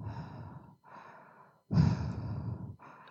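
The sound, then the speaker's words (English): Breathing into a highly sensitive microphone, with four breaths in a row: two softer airy exhales, then a louder, fuller one, and a short final breath, each a clear rushing hiss. “it also seems super sensitive, so I can hear myself breathe.”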